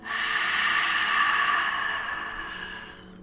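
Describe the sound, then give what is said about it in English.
A slow, deep breath, drawn in through the nose and let out through the mouth as part of a guided breathing exercise: one long, soft, airy rush of air that holds steady, then fades away near the end. “Deep breath in through the nose. Deep breath out through the mouth.”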